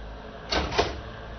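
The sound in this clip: A door being opened, heard as two short, faint clattering knocks about a quarter second apart over a low background hum.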